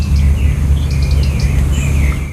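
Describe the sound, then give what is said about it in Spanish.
European robin giving clicking calls at dawn: several short, high, faint ticks scattered over a loud, steady low rumble. “Está amaneciendo y escuchamos los primeros chasquidos del petirrojo europeo”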